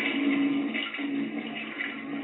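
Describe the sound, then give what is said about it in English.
A toilet flushes with a steady rush of water and a faint low hum underneath, holding a fairly even level throughout with no talking. “yes, you flush shit down the toilet. You know what I mean? You flush shit down the toilet.”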